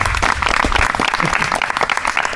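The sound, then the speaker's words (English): Audience applause thanking a speaker: a dense, steady patter of many hands clapping that holds at an even, loud level for the whole clip without a break. “Maybe we can give him a round of applause for his. Thank you.”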